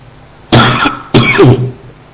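Two loud, harsh coughs in quick succession, each a rough burst lasting about half a second, with no talk around them.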